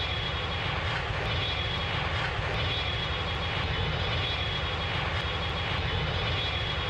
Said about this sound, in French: Décollage. Attachez vos ceintures.